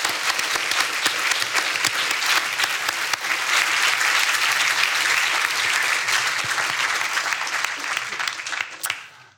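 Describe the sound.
An audience applauds to thank a speaker at the end of an evening talk: dense, steady clapping holds at full strength for several seconds, then thins and fades out near the end.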